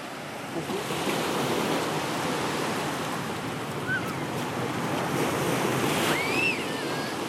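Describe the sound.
Sea waves surge and wash continuously, mixed with gusting wind buffeting the microphone. The roar stays loud and steady throughout with no break.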